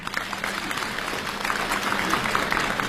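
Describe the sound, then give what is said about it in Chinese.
Audience applause greets performers before a comic crosstalk act: dense, steady clapping from many hands, loud and continuous throughout, without speech over it. “感谢朋友们的掌声。”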